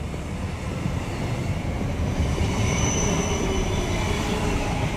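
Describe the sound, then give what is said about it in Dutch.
Passenger train departing Amsterdam and riding along the rails: a steady, continuous rumble of wheels on track with a faint high squeal running through it. “De trein rijdt ongeveer nog dezelfde route.”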